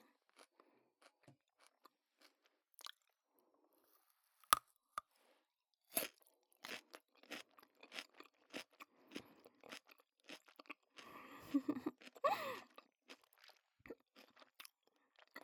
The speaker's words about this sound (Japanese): ほら、ご主人様も食べて食べて、おいしいよ